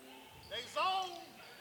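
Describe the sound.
A basketball put on the floor and dribbled on a court during a game, soft, quiet bounces beneath a commentator's voice.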